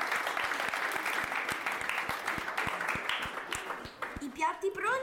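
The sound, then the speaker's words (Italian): Applause from a school radio audience, a steady crackle of many hands clapping under a speaking voice, ending with a short rising vocal flourish. “Grande applauso”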